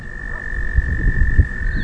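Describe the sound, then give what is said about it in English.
Frogs croak in a native prairie. A steady high trill runs throughout, with low, irregular croaking pulses beneath it that grow stronger toward the middle. “Today, frogs sing in a native prairie at the foot of the cell.”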